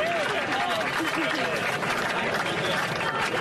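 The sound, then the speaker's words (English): Crowd applause at a sports event, a dense, unbroken wash of clapping and cheering with voices rising over it throughout. “And now the crowd realizes what's happened. Yeah. The applause gets louder.”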